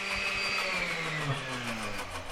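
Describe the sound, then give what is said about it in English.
A blender motor whirs through a batch of mussel samples from Petersburg at a shellfish testing lab in Sitka. The steady, loud grinding drone carries a tonal hum whose pitch drifts slightly lower. “The batch of mussels in the blender right now is from Petersburg, a community 90 miles east of Sitka.”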